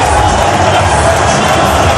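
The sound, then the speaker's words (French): Rugby stadium crowd of 13,023 roaring and cheering at Ernest-Wallon after Vannes win the Pro D2 final: a dense, loud, unbroken wash of massed voices, steady throughout with no clear pauses. “Le public d'Ernest Vallon qui exulte, ces 13 023 qui vont en top 14.”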